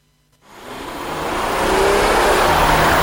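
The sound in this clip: A Bike car engine revving, rising from near silence into a loud, building roar that keeps swelling for about two and a half seconds, with no talk.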